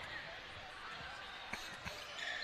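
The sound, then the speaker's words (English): A basketball is dribbled during a game: a couple of faint, dull bounces poke through a constant wash of crowd noise. “Over on the right side goes to Gonzalez. Gonzalez is going to dribble down.”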